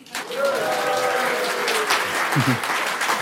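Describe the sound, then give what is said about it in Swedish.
A live audience at Pop House on Kungliga Djurgården in Stockholm applauds. Dense, steady clapping starts quickly and holds at an even level for a few seconds. “Och idag sänder vi återigen veckopanelen inför en live-publik som jag tror gillar att höras och visa att den finns. Den låter så här.”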